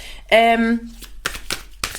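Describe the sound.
Oracle cards being shuffled, with cards jumping out of the deck: after a brief spoken exclamation, a couple of quick papery riffling bursts follow.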